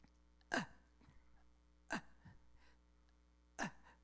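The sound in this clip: A voice imitating a desperate gasp for air during a sermon about hell. Three sharp, strained gasps come at even intervals about one and a half seconds apart, each short and harsh, with near silence between them.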